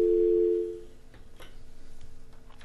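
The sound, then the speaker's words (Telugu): A steady telephone tone follows a caller's line being cut off. It is a single loud, even hum that lasts under a second, then fades into quiet background noise. “Hello, line cut అయిపోయింది.”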